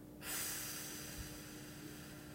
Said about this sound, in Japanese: では笑顔でゆっくり吸います、はい、ではゆっくり吐きましょう